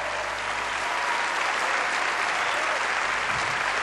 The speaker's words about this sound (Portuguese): Uma salva de palmas